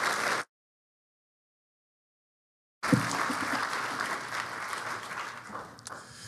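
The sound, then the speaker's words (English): Church audience applause welcomes a pastor at a Missions Sunday service. A short burst cuts off into a gap of silence, then clapping returns and holds steady for several seconds. “So would you please put your hands together and welcome Pastor Justin Thomas.”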